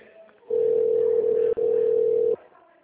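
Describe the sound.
A steady telephone tone plays while a call is transferred: one long continuous note lasting about two seconds with a brief dropout midway, and faint background noise before and after.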